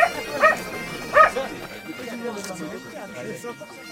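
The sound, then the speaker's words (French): A dog gives a few short, high yapping barks near the start, then falls quiet while people keep talking underneath. “Pistolet, tu es un bon chien”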